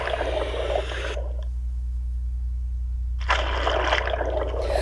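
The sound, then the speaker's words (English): Water sloshes and splashes as a swimmer in goggles ducks under the surface. The sound then drops to a muffled, near-silent hush for a couple of seconds before the splashing water noise returns. “Okay, I have my goggles on. I'm going to go under. Here I go.”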